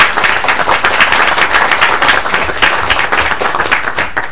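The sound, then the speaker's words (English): An audience gives a round of applause to welcome a visiting group of 9th to 12th grade students from a Minneapolis academy, with loud, steady, continuous clapping throughout. “The 9 through 12 graders from the Lighthouse Academy of Nations in Minneapolis is here for a visit today, so we'd like to give them a hand and welcome them.”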